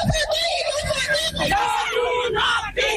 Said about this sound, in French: Hier, des manifestantes ont donc crié leur colère à Dakar.